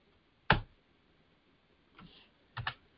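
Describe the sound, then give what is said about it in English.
Keystrokes on a computer keyboard while typing a Google search: one loud sharp click, a pause, then a softer stroke and a quick double click, with quiet between and no voices. “Now, if I do a quick Google search, which I'm going to do, I'm going to do that now. I'm going to type in Tia Tamari.”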